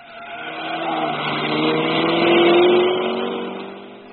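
A car engine as armed men drive off from the street with a stolen statuette. The engine's tone climbs steadily in pitch and swells in loudness, then fades toward the end.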